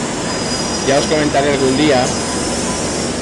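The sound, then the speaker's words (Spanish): A Madrid metro train runs with a steady, loud rumbling roar and a thin high whine, while a voice speaks briefly over the noise. “Lo bueno del metro en verano es que hay poca gente y eso se agradece por todo.”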